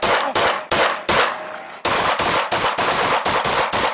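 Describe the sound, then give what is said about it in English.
Gunshots fired by police officers at a man beside a house, a loud, rapid series of many sharp cracks in slightly irregular succession, with one brief pause partway through. “5-7 shots fired, 7-8 down.”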